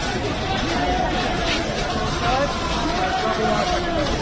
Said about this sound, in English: That's the sound of looting. Not protesting. Not demonstrating.